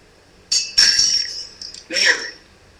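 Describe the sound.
A drinking glass breaks in a few bright, sharp bursts of shattering and tinkling, with a brief lull before a final crash of glass.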